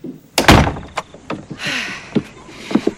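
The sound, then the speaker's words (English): A door to a quiet room is opened by its handle: one heavy thunk, then a few lighter clicks and taps, with no talking. “Ivy feels for the handle of the quiet room door”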